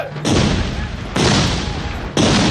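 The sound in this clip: Gunfire volleys from soldiers in a radio drama: three loud, harsh blasts about a second apart, each starting abruptly and rolling on as a dense crackling roar until the next.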